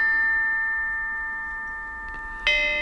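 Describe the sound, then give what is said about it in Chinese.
Ancient bronze chime bells ring: a sustained metallic tone with layered overtones fades slowly, then a fresh strike near the end brings a bright, shimmering new ring. The whole passage is fairly soft. “编钟真是太好听了，”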